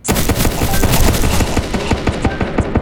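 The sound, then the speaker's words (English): Rapid machine-gun fire from a tower in a tower defense video game: a loud, continuous rattle of many quick shots with no pauses throughout. “Chaotic die by bullet, fire 6 tower machine gun. Shark die by Marshall's tower cannon.”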